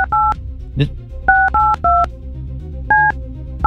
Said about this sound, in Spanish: vamos a volverle a marcar a ver si se quita la onda